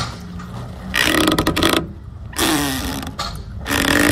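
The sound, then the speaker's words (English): Dock lines tightening on a rocking boat: three loud bursts of creaking, straining rope noise, each lasting about a second and separated by quieter rustling gaps, with no voices. “that was dock lines tightening on a rocking boat”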